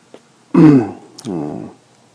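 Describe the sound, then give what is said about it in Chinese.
Coughing and throat clearing during a Buddhist teaching: a faint click, then two voiced, rasping clears, the first louder and rougher than the second. No talk is heard over them. “抱歉，有一点点咳嗽啊”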